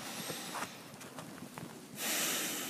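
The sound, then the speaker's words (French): One slow breath drawn in through the nose during a relaxation exercise. It stays faint at first, then turns into a louder, airy hiss toward the end. “Et puis une troisième, inspire avec le nez.”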